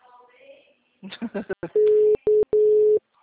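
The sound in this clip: A phone call rings unanswered on the line. After a brief voice, a steady mid-pitched tone sounds three times in pulses of uneven length.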